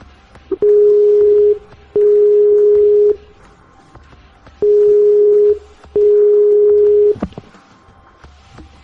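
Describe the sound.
Telephone ringback tones while placing a call: two pairs of steady, mid-pitched tones, each about a second long with a short pause between them and a longer gap between the pairs, then a sharp click.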